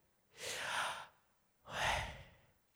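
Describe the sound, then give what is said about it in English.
People breathe together as a group during a sermon: two soft, airy breaths separated by a short pause, each swelling and fading over about half a second. The breaths are faint and there is no talk. “breathe in, everybody, like, breathe in real quick with me. Did you hear it?”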